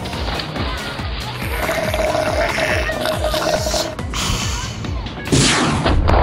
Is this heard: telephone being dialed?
no